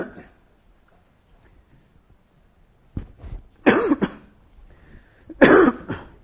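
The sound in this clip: Coughing and phlegmy throat clearing from a lecturer wearing a microphone: a few harsh bursts after a near-silent stretch, with two loud, rough peaks near the end.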